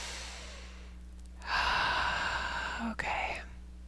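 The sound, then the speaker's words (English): A deep breath taken during a guided meditation. A soft, drawn-out inhale swells in the middle, followed by a brief catch and a shorter release over a low steady hum. “Okay. Nice deep breath.”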